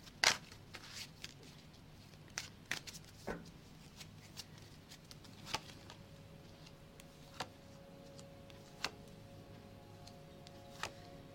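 Tarot cards are shuffled and handled quietly, with soft flicks and light taps at irregular intervals over a faint steady hum.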